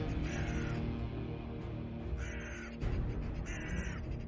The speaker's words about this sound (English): There's always there's always a raven or two around.